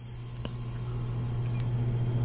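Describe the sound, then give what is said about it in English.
Jungle insects in Borneo make a steady, shrill high-pitched drone over a low continuous hum, unbroken and even in level. “just a little bit of atmospheric insects from the jungle in Borneo.”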